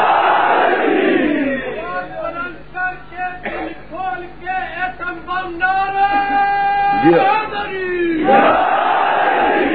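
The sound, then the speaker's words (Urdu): A large crowd, seated as far out as the parked vehicles, bellows the Naara-e-Haidari slogan at a religious gathering. A loud roar of voices opens and closes the passage, with a single voice calling in the quieter middle. “باہر تک بیٹھے ہوئے جہاں جہاں تک گاڑیوں میں بیٹھے ہیں سب پوری طاقت و توانائی کے ساتھ نعرے حیدری،”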